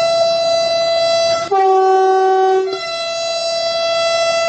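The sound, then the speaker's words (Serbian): Horn of a Russian-built train with German engines and Knorr brakes blares loudly in a sustained tone, then drops to a lower note for about a second in the middle before returning to the first pitch. “Ovo je u osnovi ruski voz. Rusi su pravili karoseriju šasiju, ima nemačke motore, kočnice Knorove, saobraća veoma uspešno, dobar je, udoban.”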